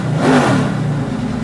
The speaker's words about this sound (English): you can see and hear what it's like to be in that car and do a lap.